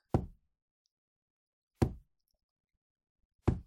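A forehead knocks against the floor during kowtowing bows, making three sharp, dull thuds spaced evenly apart with silence between them.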